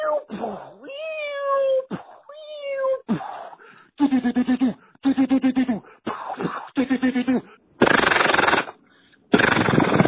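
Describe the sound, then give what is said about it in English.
A voice imitates battle sound effects: sliding whistle-like zaps, rapid stuttering bursts like machine-gun fire, and loud hissing blasts like explosions, delivered in quick succession as a comic impersonation. “Thank you for everyone calling with your own Michael Winslow impersonations there.”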